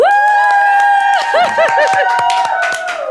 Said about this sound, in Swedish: Det ni hör här är våra sköna poddlyssnare som faktiskt är med.